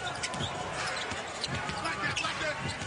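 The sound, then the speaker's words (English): A basketball dribbled on court during a game: many quick, steady bounces at a brisk rhythm under constant crowd noise and voices. “Weave dribble by White brings Gobert with him.”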